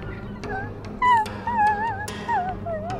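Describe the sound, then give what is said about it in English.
High, wavering whimpers come from a strange two-mouthed creature: several thin, sliding whines rise and fall in pitch, with short, quieter gaps between bursts. “From the strange 2 mouths of this creature, you hear a whimpering”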